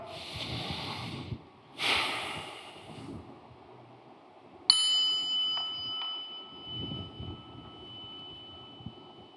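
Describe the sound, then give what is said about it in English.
A group at a prayer service draws a big, deep breath: two breathy rushes of air, then a bright bell ding that rings on and slowly fades. “let's all get a big breath.”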